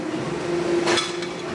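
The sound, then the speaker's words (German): A glassy, ringing clink comes from striking a plastic part filled with 30% glass fibre, fine fibres spread throughout. A steady resonant tone sustains while one brighter, sharper hit lands, with no voices. “hört man richtig den glasigen Sound, als würde ich ein Glas irgendwo anschlagen. Weil hier 30% von diesem Teil sind Glas. Zwar in kleinen Fasern und überall drin verteilt, aber man merkt es.”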